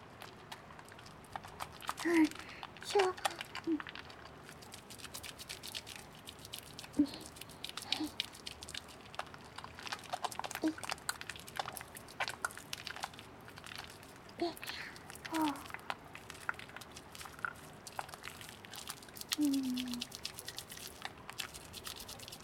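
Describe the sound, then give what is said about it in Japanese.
Soap being worked into a lather, with faint, wet squishing and crinkly popping of foam that continues steadily, broken by a few slightly sharper clicks. “まずは石鹸を泡立てて、”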